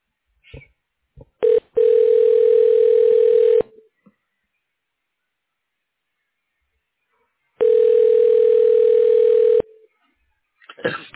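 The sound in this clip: Telephone tones on a cardiology office's automated phone menu as a menu option is dialed: two long, steady electronic tones of about two seconds each, split by a silent gap, with a few soft clicks before and after.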